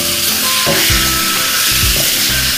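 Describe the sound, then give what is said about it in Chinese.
Loud, steady sizzling as spring bamboo shoots for twice-cooked pork are stir-fried in oil with light soy sauce over high heat. The frying hiss runs continuously with some stirring noises mixed in, and no voices. “首先生抽开大火，把这个春笋倒进去，”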